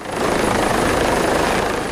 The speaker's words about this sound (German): Ein Hubschrauber landet auf dem Helideck des Umspannwerks, mitten in der Nordsee, rund 40 Kilometer nördlich von Jüst.